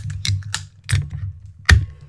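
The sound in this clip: A can of Austin Brothers New England IPA is opened. A few light tapping clicks lead to a sharper, louder crack near the end, over a low steady hum.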